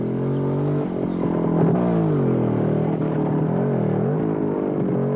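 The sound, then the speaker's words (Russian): Motorcycle with a sidecar running its engine, a continuous low droning hum rich in harmonics whose pitch wavers slightly up and down, steady in loudness from start to finish. “Из коляски мотоцикла вылезает Валентик.”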